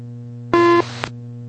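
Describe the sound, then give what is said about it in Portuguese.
A single short radio beep on an air traffic control channel during a military aircraft's landing clearance. The steady tone sits over a constant background hum and is followed by a brief click. “Bip checado, Força Aérea 361”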